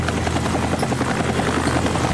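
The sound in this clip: A remote-controlled aircraft flies during a beer-bottle-opening challenge, giving off a steady, even buzzing rotor drone that holds without pause. No clear bottle sound stands out.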